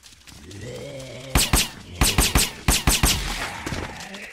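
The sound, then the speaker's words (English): Gunfire in a zombie video game: many sharp, punchy shots come in quick, uneven bursts over a steady low background hum. “So we're just kind of running around shooting zombies.”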